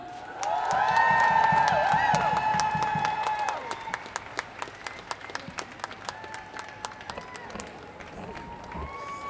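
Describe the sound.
Crowd applause welcomes a speaker at a feminist march for International Women's Day, starting as a dense, loud wash of clapping and then thinning into scattered individual claps.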